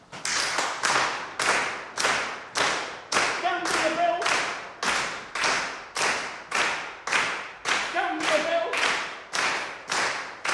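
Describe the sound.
Group body percussion of hand clapping and foot stamping beats out a steady, even rhythm. Brief shouted voices rise twice over the pulse.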